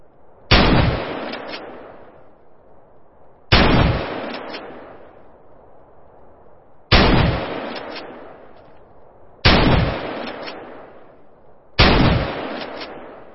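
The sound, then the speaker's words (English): Kel-Tec KSG shotgun firing: five loud, sharp blasts at a slow, fairly even pace about three seconds apart, each booming report decaying into a ringing tail before the next shot. “That was the Kel-Tec KSG shotgun.”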